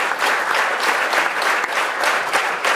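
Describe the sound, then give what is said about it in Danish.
Dense applause from a concert audience for a group of musicians at the opening concert of a chamber music festival focused on folk music, a steady wash of many hands clapping throughout. “hujende bifald her igen til Andreas Brandelit”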